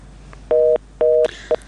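Telephone tones sound after a caller's line disconnects on a call-in line. Two even, mid-pitched beeps each last about a quarter second, a third is cut short, and a brief burst of noise follows.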